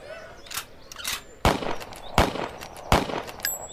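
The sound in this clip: Rifle shots in a shooting contest ring out as three loud, sharp cracks at even intervals. A few fainter pops come before them.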